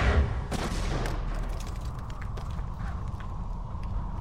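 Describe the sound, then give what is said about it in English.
Gunshots are fired to blast the top off a sealed container that has no way in. A couple of sharp bangs come near the start, followed by a steady rough noise with faint scattered clicks. “Well, we'll make a way in. Stand back. I think I can shoot the top off it.”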